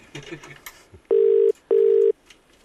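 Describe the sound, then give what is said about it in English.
Ringing tone of an outgoing telephone call: two steady, mid-pitched tone bursts of about half a second each, separated by a short gap, after some brief faint sounds. “Okay, so we're going to call Ollie.”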